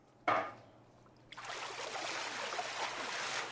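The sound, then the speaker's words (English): Water splashing and rushing in a big tub inside a barn as turnips are washed: one sharp splash near the start, a short lull, then a steady, fairly loud wash of churning water to the end. “unload turnips from a trailer and wash them in a big tub.”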